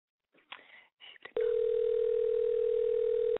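Ringback tone of a telephone ringing on an outgoing call: one steady, loud tone that holds for about two seconds and then cuts off, preceded by a few brief, fainter sounds.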